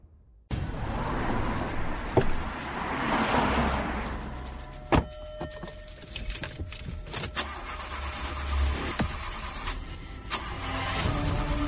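A car engine fails to start: steady cranking and engine noise runs almost throughout, marked by a few sharp clicks and knocks.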